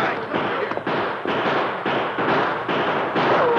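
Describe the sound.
Gunfire crackles through a western shootout between outlaws and lawmen in a radio drama, as many sharp, noisy shots follow one another in a steady, rapid rhythm with no talk.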